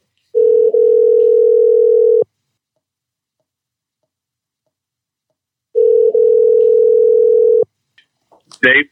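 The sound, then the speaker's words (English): A telephone dial tone while a call is being dialed: two steady, even tones of about two seconds each, separated by silence and followed by a few faint clicks. “Yeah, I'll get him dialed up here.”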